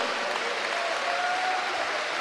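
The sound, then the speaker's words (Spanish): Steady applause from a church audience during a sermon, a dense, even wash of clapping that holds at a moderate level for the whole two seconds without rising or falling. “Démosle un aplauso a él en esta hora con todo el corazón y toda el alma.”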